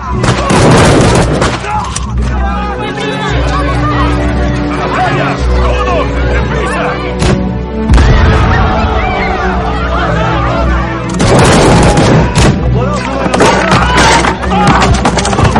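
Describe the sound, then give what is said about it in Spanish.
Mortar fire from Turkish soldiers on a hillside in a film: loud booming bursts near the start and again later, set against constant crowd babble and shouting, with a voice speaking over much of it. “En una ladera, los turcos disparan morteros.”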